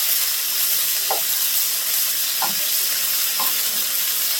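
Scallops sear in a hot pan with a loud, constant sizzle and hiss, broken by a few soft scrapes or stirs.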